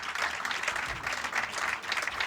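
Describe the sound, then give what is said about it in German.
Audience applause, a soft but sustained wash of many hands clapping together with no clear breaks. “Einen großen Applaus”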